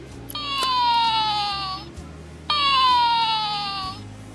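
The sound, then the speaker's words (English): Electronic squeal from a toy penguin, two long whining tones that slide downward in pitch, each lasting under two seconds, separated by a short gap and fairly loud. “The penguin does the same thing as the reindeer, and my son collects penguins, and he even makes a noise.”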